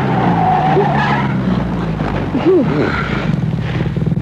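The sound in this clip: Car tyres skidding as the driver brakes hard and pulls the handbrake, a loud, sustained screech with a rumbling engine beneath that continues throughout.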